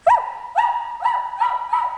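A girl crawling on all fours imitating a barking dog gives five evenly spaced, high-pitched, yelping barks, each sharp at the start and trailing off briefly.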